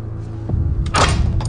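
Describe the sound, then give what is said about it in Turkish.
A door is opened by hand in a room: a faint click, then a short, louder rattling burst over a low, steady background hum. “Kapıyı kendisi açtı.”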